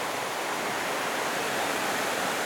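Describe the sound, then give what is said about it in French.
Mountain waterfalls cascading beneath a glacial step into a small gorge produce a steady, dense roaring rush of water, continuous and even in loudness throughout, with no voices. “Ces cascades, cette force qui anime.”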